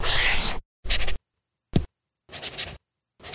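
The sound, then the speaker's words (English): Pen strokes on a Remarkable Paper Pro paper tablet with a colour ink display: five short, crisp, scratchy bursts of writing with silent gaps between them. The middle stroke is very brief. “That's not paper. It's the sound of the new Remarkable Paper Pro, rewriting the future.”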